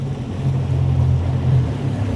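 A motorboat's low, steady engine drone carries across the water off the southern tip of Florida in Everglades National Park, a continuous even rumble with no voices.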